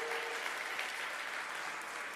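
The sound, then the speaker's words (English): A church audience claps in praise at a Mother's Day service, making a steady, dense wash of many hands that holds evenly from start to finish. “So can we give God a clap praise right now and just give him glory and honor?”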